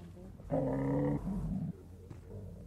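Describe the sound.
Deep growl from a large, shaggy grey shepherd dog: a harsh, tonal snarl of about half a second, then a lower, rougher rumble that trails off.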